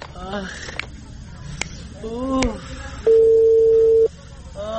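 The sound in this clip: A telephone call being placed, with one steady ringing tone lasting about a second, heard amid talking.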